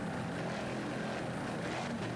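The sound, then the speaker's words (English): Engine drone of a 38-foot Fountain powerboat with twin 500-horsepower Mercury inboard engines, running in a performance boat race near Daytona Beach: a faint, steady, droning hum that holds evenly throughout with no clear changes in pitch. “a Performance Marine, a 38-foot fountain, mercury-powered.”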